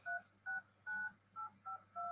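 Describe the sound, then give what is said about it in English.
Six keypad tones from a cell phone sound one after another, each a short steady electronic beep with a small gap between, fairly faint over a low hum. “it still plays the different tones on your cell phone”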